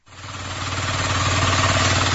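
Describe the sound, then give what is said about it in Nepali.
A two-wheel hand tractor engine used for ploughing farmland in Sisne rural municipality: a mid-pitched, rhythmic chugging that quickly builds in loudness and then holds as a steady, throbbing drone. “हाती ट्र्याक्टरको माध्यमबाट खेती गर्न थाल्नु भएको छ। जोत्नको लागि उहाँलाई अहिले गोरु पालिरहन पर्दैन।”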